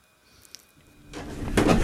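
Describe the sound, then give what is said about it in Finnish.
Wooden floorboards creak in a house built in 1815. The noise starts faint, then grows into a louder, rough groan toward the end. “Mukavasti narisee tämä 1815 rakennetun talon lattia”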